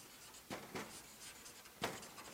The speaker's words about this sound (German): ich schreibe auch mal Unzufriedenheit hin.